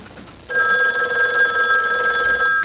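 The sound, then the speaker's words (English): A telephone ringing with one steady, bright electronic tone that starts after half a second of near silence and keeps going, loud and unbroken, to the end. “Sorry for the interruption of that phone call.”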